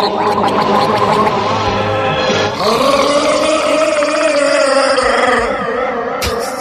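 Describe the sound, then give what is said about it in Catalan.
A man gargles water while performing a song, producing a long, continuous, throaty bubbling tone with a wavering pitch. It stays loud and unbroken throughout, with a brief shift in tone about halfway. “És que ho fa glopejant aigua. S'ennuegarà, al final.”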